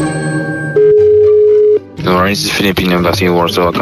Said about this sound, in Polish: A jakby tak teraz zadzwonić do ambasady Filipin?